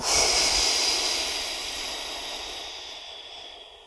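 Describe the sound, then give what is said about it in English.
A deep breath drawn in and let out during a guided breathing exercise, heard as one long airy hiss that starts strong and slowly fades over several seconds, with no talk. “Deep breath in. And let it go.”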